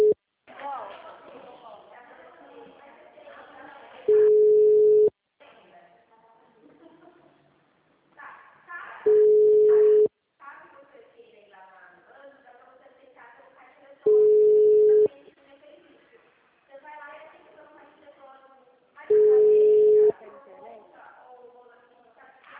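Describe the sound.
A telephone ringing tone, four long, flat beeps repeating at regular intervals of about five seconds, with people talking in the gaps between them.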